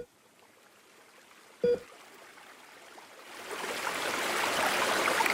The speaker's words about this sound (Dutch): Ik heb afgesproken met Monica Curran hier aan de rivier in het dorp. Dit is de Darling Rivier